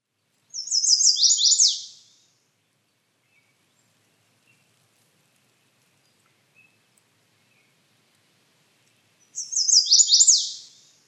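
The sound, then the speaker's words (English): Two short calls of a hairy woodpecker, each a rapid burst of high, sharp, descending notes, separated by a long silence. “Hairy woodpecker.”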